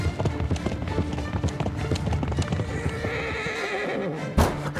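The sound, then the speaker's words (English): Horses ridden at a gallop give rapid, rhythmic clip-clop hoofbeats throughout, with loud neighing and whinnying rising over the hooves toward the end. “they rode on horseback to the convent of San Paolo”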